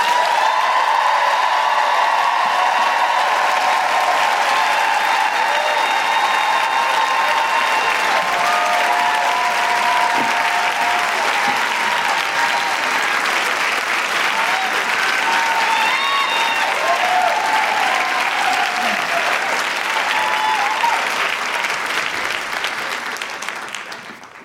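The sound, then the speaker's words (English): Sustained applause from an audience welcoming an introduced guest author, steady and loud for the whole stretch, with a few voiced whoops over the clapping before it tapers off at the end. “Please put your hands together and make incredible woohooing noises for Farzana Doctor.”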